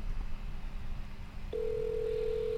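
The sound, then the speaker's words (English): A phone call ringing out: faint background hum, then a steady, low electronic ringback tone starts midway and holds to the end. “She didn't answer my text. Maybe she'll answer the call.”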